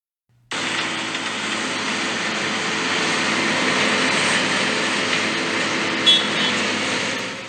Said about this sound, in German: Bagger und Bauschutzzaun.